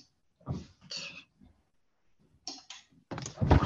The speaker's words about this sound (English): let me see if I get this light on.